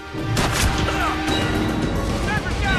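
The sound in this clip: A sniper rifle shot in the video game 24: The Game, with a sharp, loud crack early on amid a busy mix of game sounds and voices.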